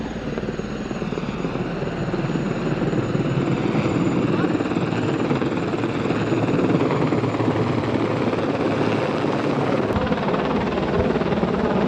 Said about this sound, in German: Jetzt kommt der Hubschrauber.